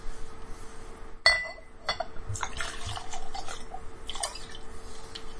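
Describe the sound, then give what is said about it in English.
A drink is poured to refill a glass: one sharp glass clink, then quiet trickling and light knocks from liquid and glassware, with no talking. “My drink's empty. You know what you should do? Fill it.”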